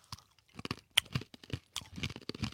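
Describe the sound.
Someone chews sticky food, producing faint, irregular wet crunches and smacking bursts with quiet gaps between bites. No one speaks.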